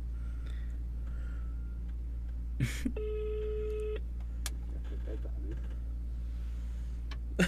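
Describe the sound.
An outgoing phone call rings unanswered: a single electronic ringback tone of about a second sounds faintly over a low steady hum, with a few soft clicks and brief noises around it.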